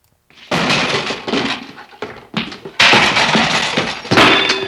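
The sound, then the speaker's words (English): A busboy drops plates in a kitchen, producing a series of loud crashes and shattering clatters, each smash followed by rattling debris, with brief gaps between the bursts. “And now the busboy dropping plates in the kitchen.”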